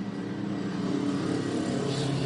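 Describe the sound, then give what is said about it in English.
A race car, number 77, roars off at a motor race, its engine a loud continuous droning rumble that holds fairly even throughout. “But off and away already for AO Racing's Roxy as the 77 roars off.”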